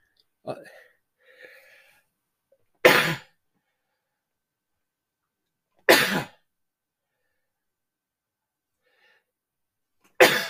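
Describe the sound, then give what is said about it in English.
A sneezing fit: three sharp, explosive sneezes separated by long silences, preceded by brief faint breathy vocal sounds. “Hit with a sneezing fit.”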